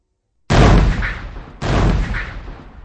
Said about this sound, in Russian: Била корабельная артиллерия, взрывались бомбы, трещали автоматы